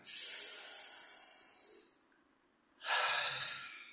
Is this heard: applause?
no